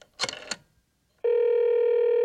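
A telephone being dialled to call the police: a short burst of clicks and noise, a brief silence, then a loud, steady, unbroken telephone tone that holds to the end.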